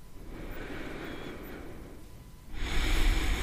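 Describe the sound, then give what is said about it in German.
Deep, full breaths in yoga child's pose after a vinyasa: two airy breath sounds, the first soft and drawn out, the second louder and fuller, with no talk. “dann finde dich auch gerne langsam ein in der Haltung des Kindes und nimm hier gerne nochmal zwei, drei tiefe und vollständige Atemzüge.”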